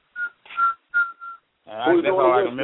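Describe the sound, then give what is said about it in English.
A person whistles four short, clear, high notes in quick succession, then someone starts talking right after the last one. “Who's doing the kiddish whistling?”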